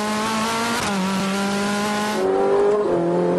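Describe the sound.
Ferrari 458 Italia engine revving and shifting gears: a loud, sustained, strongly tonal engine note whose pitch changes abruptly a few times, like quick gear changes, with no voices.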